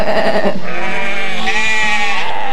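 Sheep from a herd bleat loudly with wavering, harmonic-rich calls, a short bleat followed by a long drawn-out one, with no talk.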